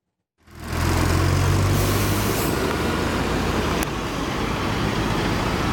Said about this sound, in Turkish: Abi korkuyoruz çünkü üstünden tonlarca araba geçiyor.